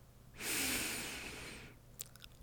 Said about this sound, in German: Ich muss jetzt erstmal tief einatmen